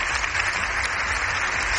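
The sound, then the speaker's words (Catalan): Applause in the Congress of Deputies after Pope Leo XIV's speech, a sustained, even roar of many hands clapping with no break or change in loudness. “però al matí el protagonista han sigut aquests aplaudiments.”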